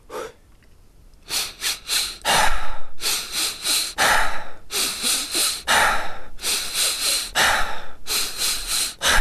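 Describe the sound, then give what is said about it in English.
A breathing exercise of three quick inhales through the nose followed by a relaxed sigh out through the mouth, repeated in several fast, loud cycles: short sniffing bursts, then a longer airy exhale, with no talking. “So three inhales through the nose, followed by a relaxed sigh out through the mouth. So it goes like this.”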